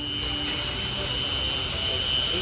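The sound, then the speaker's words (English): Jet engines roar at an airport: a steady, dense rush of noise with a thin high whine running through it, continuous and unbroken throughout. “All right, last stop, where else? We're going to the airport.”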